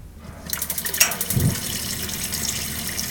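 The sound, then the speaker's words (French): Water runs from a kitchen sink tap fed by an instant gas water heater, a steady splashing hiss that starts after a short quiet moment and flows on evenly to the end. “Donc on constatera que t'as l'eau courante. 35-40, c'est ça. Entre guillemets. Aussi bien l'eau chaude qu'à l'eau froide.”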